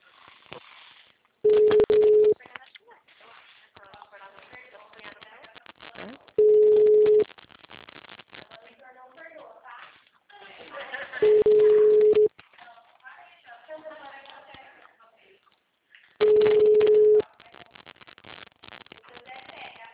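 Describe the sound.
An unanswered phone call rings out as four long, steady ringback tones at even intervals, each about a second long, while people talk in the gaps between them.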